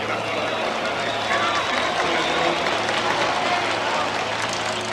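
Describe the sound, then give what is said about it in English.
Buzzing murmur of a crowd of 110,000 fans packed into Aztec Stadium in Mexico City for the unofficial 1971 Women's World Cup, forming a steady, dense wash of noise with a low hum underneath and no distinct peaks. “That sound you heard was the buzzing crowd of 110,000 fans who packed Aztec Stadium in Mexico City to watch the unofficial 1971 Women's World Cup.”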